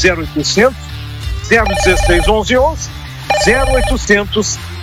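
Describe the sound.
A telephone rings on a call-in line. Repeated bright, bell-like ringing tones come in short bursts, mixed with voices.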